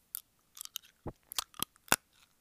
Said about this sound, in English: Do you suck TikToks and then chew? Or do you just shove it in and chew? Personally, I just shove it in and chew. Like this